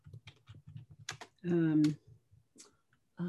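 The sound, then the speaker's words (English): Typing on a computer keyboard into a web browser: quick irregular bursts of light key clicks, broken midway by a short sustained voiced tone before the tapping resumes. “So I get onto my web browser and I type in. Type in freestyle.”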